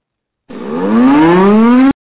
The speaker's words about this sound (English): If that happens, I will be playing the siren, and I just want to make that announcement right now.